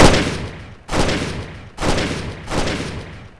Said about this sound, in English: The bullets did nothing.